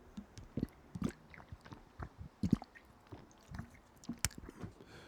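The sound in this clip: Faint sounds of a person drinking: many irregular wet mouth clicks, sips and swallowing noises, with no talk.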